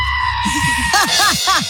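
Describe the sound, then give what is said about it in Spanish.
Goat bleating in a quick series of short, wavering cries, with softer bleats at first and louder, higher calls following, loud and alone. “Es un chivo.”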